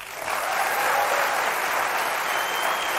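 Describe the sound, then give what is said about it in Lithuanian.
An audience at a filmed television event applauds, a round later judged weak. The clapping is an even, moderate wash that swells slightly after the start and then stays level and unvarying, with no voices. “aš galvoju kažkaip čia silpnai su tais plojimais”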